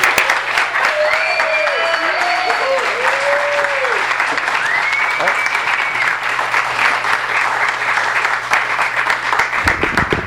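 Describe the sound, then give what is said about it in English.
Sustained applause from an audience welcoming an author at a book reading: dense, steady clapping that stays loud for about ten seconds and then drops away at the very end. “So please put your hands together and give a warm welcome to Jim Ruland.”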